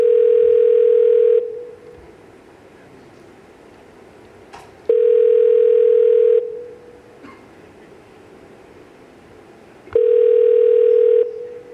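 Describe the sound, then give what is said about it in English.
Telephone ringback tone heard while a call waits to go to voicemail: three steady, even-pitched rings, each about a second and a half long and separated by longer silent gaps, with faint clicks between them. “After four rings, you usually get voicemail.”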